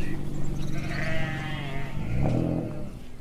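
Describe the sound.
Sheep bleat on a shepherd's pasture, giving wavering, nasal cries that overlap and follow one another over a steady, noisy background.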